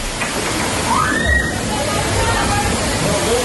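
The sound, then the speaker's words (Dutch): Floodwater rushes across a party venue after heavy rain made a nearby stream overflow, a loud, continuous sloshing roar with voices audible underneath. “Het regende zo hard dat een beek in de buurt overstroomde. Het water stroomde in rap tempo de feestlocatie op en mensen stonden tot hun knieën en hoger in het water.”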